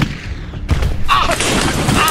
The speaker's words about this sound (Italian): D'accordo, ora gli sparo, prendo la mira. Al mio tre, uno, due, tre.